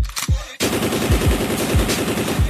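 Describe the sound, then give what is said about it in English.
Machine gun fire as a sound effect: a loud, sustained stream of rapid shots in a fast, even rhythm, with a few sharper, heavier blasts standing out among many quick cracks. “Let us get some machine gun noises.”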